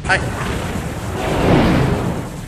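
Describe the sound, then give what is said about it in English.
Sci-fi spaceship secondary weapons firing and hitting, heard as a loud, continuous rumbling roar with a broad whooshing swell midway and no clear separate impacts. “I am opening fire with our secondary weapon systems. Multiple hits.”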